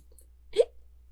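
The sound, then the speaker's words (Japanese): A single short hiccup, a soft abrupt voiced catch that stands alone against quiet background with a faint steady low hum. “しゃっくりが、”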